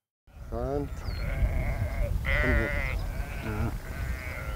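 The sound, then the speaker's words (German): Sheep bleating from a flock of about 630 on heathland at Morsum Cliff, Sylt: several loud, wavering bleats rise above a steady, low, rumbling bed of flock noise. “Die 630 Schafe sorgen hier für eine ganz natürliche Landschaftspflege.”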